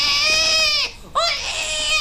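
A hungry infant cries loudly in two long, high wailing bursts separated by a brief catch of breath, with no other voices heard.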